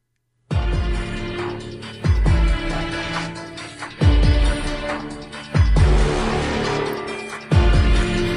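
Theme music from the horror film Saw: five heavy, booming chord hits about two seconds apart, each followed by sustained, ringing tones, loud and without voices.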